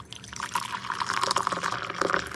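Water is poured into a glass, a soft, bright trickling splash that runs steadily throughout, faint and with no other sound over it.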